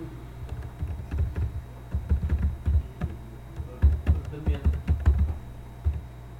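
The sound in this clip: Key clicks from someone typing a login on a computer keyboard, clattering in irregular bursts of quick presses with brief pauses between them.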